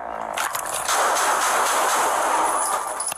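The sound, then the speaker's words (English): Gunshots ring out as a sheriff's deputy opens fire in bodycam-style footage. A few sharp cracks give way to a long, loud, noisy wash. “The 23-year-old was holding a gun with it pointing downwards, and before giving commands to drop it, the deputy opened fire.”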